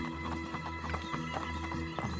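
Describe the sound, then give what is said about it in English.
Horse hooves clip-clop as the animal is ridden, a steady run of many hoof strikes at an even walking rhythm, with sustained tones humming underneath. “Look at him. Look at the way he is riding his horse.”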